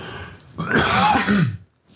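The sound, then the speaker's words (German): A single rough cough or throat-clearing burst from an adult, loud and about one second long, fading to near silence afterward. “Moment, ich muss mal gerade husten.”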